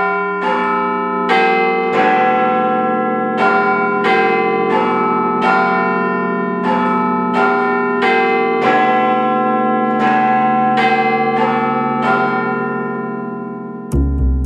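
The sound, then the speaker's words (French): A huge clock tower bell, said to reach 120 decibels, tolls loudly with many heavy, resonant strikes whose long ringing overlaps into a steady metallic hum. The ringing stops abruptly near the end with a low thud. “Parce que ce n'est pas terrible pour soigner son audition de se prendre en pleine poire les 120 décibels de Big Ben.”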